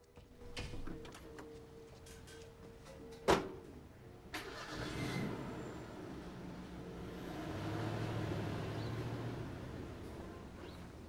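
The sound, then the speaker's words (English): A truck engine starts with a sharp click, then catches and settles into a low, steady rumbling idle. “Don watches him get in his truck.”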